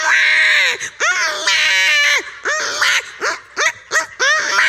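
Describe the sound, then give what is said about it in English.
A human voice imitating babies crying, part of a comic bit about grown adults lying in incubators: one long, loud, high wavering wail, then several shorter sharp cries in quick succession. “And the babies are crying.”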